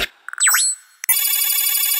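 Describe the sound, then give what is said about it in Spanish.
An electronic ringtone signals an incoming call: a quick swooping synthetic chirp, then a click, then a bright, buzzy, sustained ring that holds steady for about a second. “Llamada entrante.”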